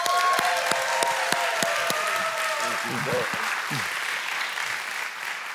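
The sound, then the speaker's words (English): A Life Church audience applauds to welcome a guest pastor with dense, sustained clapping from a large crowd that gradually thins and softens toward the end. “I would love for you to give a warm Life Church welcome to my good friend, Pastor Earl McClellan.”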